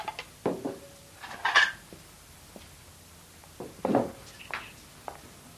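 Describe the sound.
Plates are set down on a dinner table with soft, scattered clinks and clatters, a few separated knocks with quiet pauses between them.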